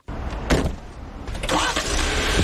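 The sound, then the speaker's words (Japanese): A Jeep Wrangler engine starts, with a couple of loud surges as it catches, then settles into a steady running drone that stays strong to the end. “まずはジープラングラーに乗って地元を走ります。”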